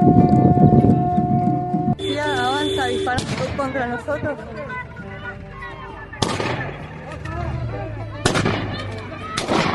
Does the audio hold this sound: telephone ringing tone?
no